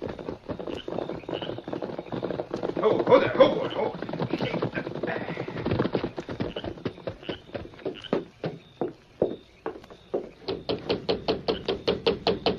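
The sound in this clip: Knocking on a door: a long run of sharp, rapid raps grows clearer and more regular toward the end, following a busier, muffled stretch of sound.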